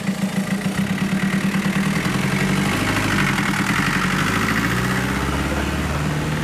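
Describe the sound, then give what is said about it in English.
Engine of a street food van with no power steering pulling away from a food park, a loud, steady rumbling clatter that fills the whole stretch without any break. “There goes Steak and Honour, pulling away from Food Park.”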